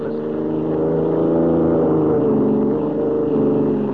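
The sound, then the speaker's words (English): A car driving on a 140-mile trip to the state capital gives a steady, low engine drone with a hum that swells slightly midway and then holds even. No one speaks over it. “we join White and Lois, who are driving alone to see the governor in the state capital 140 miles away.”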